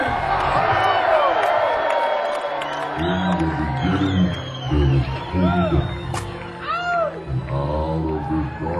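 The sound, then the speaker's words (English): A San Francisco concert crowd cheers, whoops and claps as a funk band is welcomed to the stage. Sustained, noisy crowd energy swells with scattered shouts, while a loud voice calls out over the audience. “Yeah, make some noise, San Francisco! Make some noise! And welcome to the stage, Boosie Collins and the Funk Unity Band!”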